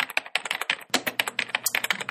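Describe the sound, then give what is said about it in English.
Rapid typing on a computer keyboard: many crisp, uneven keystroke clicks in quick succession, with no voices. “Let me just type this into CRISPR”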